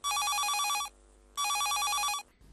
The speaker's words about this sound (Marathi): चला तर श्रोते हो ऐकूया आजच्या कार्यक्रमातील हा पहिला फोन.